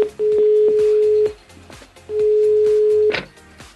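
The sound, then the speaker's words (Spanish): Telephone ringback tone on a long-distance call, two long steady beeps of the same pitch, each about a second long with a short pause between, fairly loud. “Llamando al Instituto Milford, larga distancia Medellín.”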